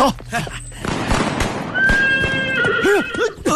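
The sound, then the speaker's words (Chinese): Horses neigh with a loud, high whinny rising over a busy background of voices and commotion, with a few further broken whinnying calls toward the end. “哎呀，哎呀，马到了！”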